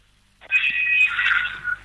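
A telephone call rings as a single electronic ring tone lasting about a second, high and buzzy. It cuts off abruptly when the call is hung up.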